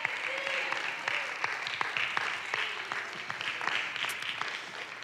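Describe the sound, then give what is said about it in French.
A church audience claps their hands during worship, with many hands beating in a steady, rhythmic pattern that continues without a break throughout. “battez vos mains, lui donne une bonne main, hallelujah, une bonne main.”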